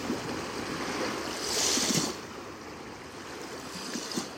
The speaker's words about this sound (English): Being fully present with the sounds of the waves